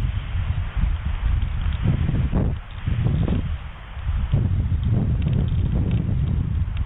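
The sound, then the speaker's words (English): Wind roars at the top of a tree about 100 feet up at Big Bear Lake in 35-degree cold, a dense, steady low rumble with rustling that briefly eases twice before surging again. “Well, it's 35 degrees at Big Bear Lake right now. Plus you add that wind in and they're 100 feet up or so.”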